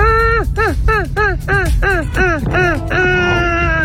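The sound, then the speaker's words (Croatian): People imitating seagull calls over a song, a rapid run of harsh, falling squawks repeated many times above a steady musical bed. “Sjetio sam se da smo nekad oponašali Galebove, pa ako pustim slušatelja otvorenog kao Galebove preko ove pjesme, dobit ćemo još ljetniju pjesmu, pa ajmo pokušat.”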